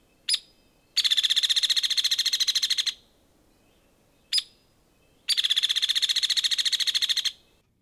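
Hairy woodpecker calls: two sharp, high single notes, each followed about a second later by a rapid, even rattle of many quick notes lasting around two seconds, over faint background noise.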